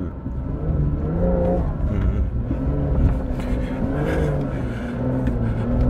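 Car engine revving while driving up a sand dune: a loud, continuous low drone that holds a steady pitch throughout, with no talk.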